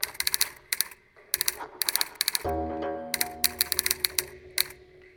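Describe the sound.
Keys clack on a typewriter as a letter is typed, striking in quick uneven bursts, with a sustained metallic ringing tone partway through while the typing continues over it.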